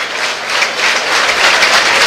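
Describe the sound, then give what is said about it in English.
Baseball stadium crowd cheering and clapping during an at-bat on a 2-0 count, a continuous bright wash of many voices and hands that swells slightly and stays steady to the end. “Crowd getting into it.”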